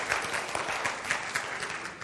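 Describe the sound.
Audience applause during a church sermon: dense, steady clapping from many hands with no voices over it, moderately loud throughout.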